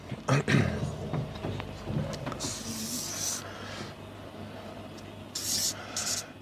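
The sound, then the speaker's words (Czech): Scratchy strokes of a red marker drawing on a board, with two longer hissing rubs and a few shorter, fainter marks between them. “Já to tady nakreslím to do toho červeně.”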